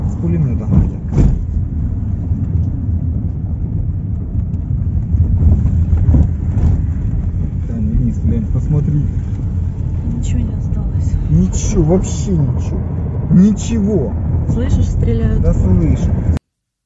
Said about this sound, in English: And I actually have video proof of the drive out of Mariupol, and it's fairly disturbing in how destroyed it currently is. So here is that for you guys.